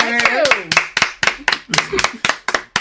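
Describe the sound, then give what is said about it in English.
An audience applauds a guest with a steady run of about a dozen sharp, evenly spaced claps. Voices talk over the first half. “Yes, y'all give her a hand.”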